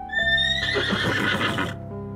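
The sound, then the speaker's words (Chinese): A mare whinnies to call her foal from a cornfield on a hot, windy day: one loud, high, quavering neigh of under two seconds that wavers and fades at the end. “大马呼唤着”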